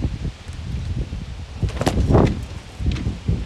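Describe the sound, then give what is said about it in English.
Wind blows outdoors in rough, rumbling gusts that buffet and rustle unevenly, swelling loudest around the middle before easing and rising again. “And even as we battle with wind and the elements here and various issues”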